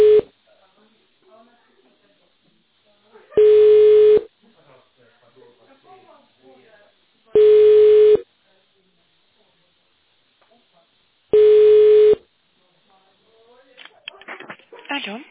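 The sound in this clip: Three long, steady telephone line beeps sound at even intervals while a call connects through an automated phone menu. Faint line noise fills the gaps, and a short rustling burst comes at the end.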